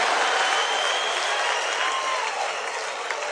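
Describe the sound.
Audience applause and clapping: a dense, even patter of many hands that holds steady for about three seconds, easing only slightly toward the end.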